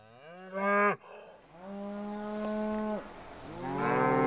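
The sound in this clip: A mother cow with her calf beside her moos three times. The low, drawn-out calls are loud and harmonic, and the middle call is the longest. The last call is cut off at the end.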